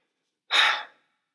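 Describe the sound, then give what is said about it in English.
A single heavy, breathy gasp from someone out of breath, loud and brief, tailing off quickly into silence. “I'm too in shape to be out of breath like this.”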